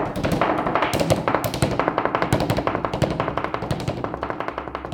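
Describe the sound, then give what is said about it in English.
A tapped Goombay beat, a rhythm from the Bahamas, plays as many quick, crisp taps in a steady, driving pattern. The beat is heard alone at an even, moderately loud level, with no voices. “if you had to make a common bass beat with your mouth, what would the beat sound like? Like boom, boom, boom, boom, boom. Oh, I do it. It's like based on the Goombe beat from the Bahamas.”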